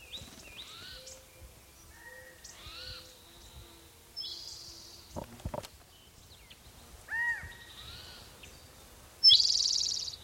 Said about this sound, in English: Maybe the calling bird is the mate.